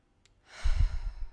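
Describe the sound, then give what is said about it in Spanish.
A single deep breath taken during a guided relaxation exercise: a soft, airy rush that swells in and holds steady with a low breathy rumble beneath, alone with no talking. “Respira hondo conmigo.”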